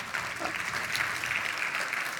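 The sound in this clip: Clapping from a church audience, a quiet but sustained patter of many hands that stays fairly even, with small swells in the middle and no talking over it.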